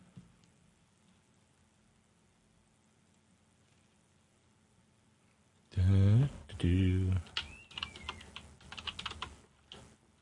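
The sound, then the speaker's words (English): Typing on a computer keyboard: a long, nearly silent stretch gives way to a brief voice, then a quick burst of sharp key clicks. “Helps if I type.”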